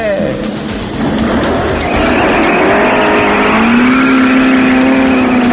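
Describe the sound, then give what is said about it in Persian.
An old, badly worn Paykan car engine running loudly, over 80 decibels, as a continuous roar with a droning tonal whine that rises slightly in pitch toward the end. “پدر کجوکوله خودروسازی ایران جناب آقای پیکان رو با بیشتر از 80 دسیبل خدمتتون معرفی میکنم.”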